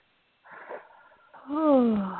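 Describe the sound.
A deep breath drawn in through the nose and let out through the mouth during a guided breathing exercise. A softer breath comes first, then a loud, voiced sigh that slides downward in pitch.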